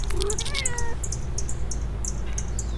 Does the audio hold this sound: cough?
no